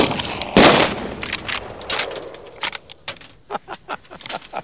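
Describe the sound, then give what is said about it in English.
Rifle gunshots from two shooters firing at infected attackers after one clears his rifle. A heavy, loud blast comes first, then many rapid sharp cracks in an uneven volley that turn shorter and lighter toward the end. “Andy clears his rifle. He and Vic shoot.”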